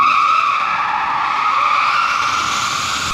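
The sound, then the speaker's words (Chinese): Tires screech as a Formula E race car drifts across a public square after tuning by mechanics. The squeal is loud and continuous, with layered high tones that hold steady for the whole stretch, and no voices. “经过机械师的调试，车手塞巴斯蒂安·布埃米在广场数十米的区域开始了拿手的漂移秀。”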